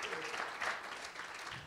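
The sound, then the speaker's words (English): Audience applause at a church service after a pastor asks for a round of applause: a soft, steady wash of many hands clapping together with no gaps and no voices over it. “Would you guys give him a big round of applause?”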